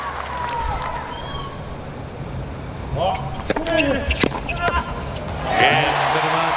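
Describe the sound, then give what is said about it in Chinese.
Tennis serve hit to the inside corner by Tiafoe on match point against Musetti at the Cincinnati Masters, a few sharp racket and ball pops under a commentator's talk. “这是一个高质量的内角发球”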